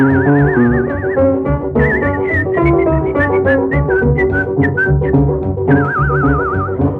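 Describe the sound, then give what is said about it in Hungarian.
A person whistles a lively tune during a cabaret act, clear and fairly loud, with wavering trills at the start and end and quick, shorter notes in between. “Tetszik tudni, mi ez, amit én itt fütyülészek?”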